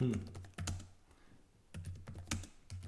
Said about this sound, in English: Sorry, I typed really really violently like that.